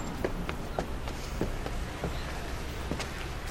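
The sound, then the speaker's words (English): Footsteps climb a set of steps. There are many light, soft taps at uneven intervals, faint against a steady background hiss. “Quinn reluctantly follows her up the steps.”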